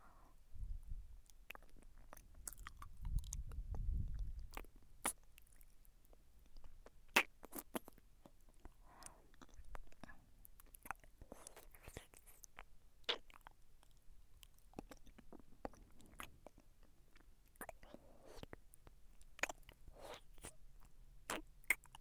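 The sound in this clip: Quiet chewing and crunching of food: many irregular sharp bites and wet mouth clicks spread over the whole stretch, faint and without talk.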